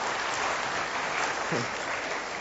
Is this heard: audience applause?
yes